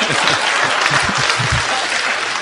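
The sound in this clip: An audience breaks into applause during a talk: a dense, loud clatter of many hands clapping, steady and sustained for the whole clip.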